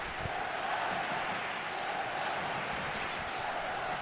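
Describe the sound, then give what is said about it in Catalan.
A football crowd chants "Villarreal" in the stands, heard as a steady, fairly faint wash of many voices with no clear breaks. “Vinga, Villarreal, Villarreal, canta el públic.”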